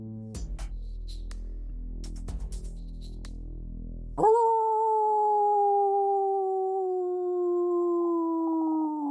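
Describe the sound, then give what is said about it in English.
A wolf's long, single howl follows a low, pulsing drone. The howl enters with a sharp upward swoop, then holds a clear, sustained tone that slowly sinks lower until the end. “Did you ever hear a wolf howl on a full moon?”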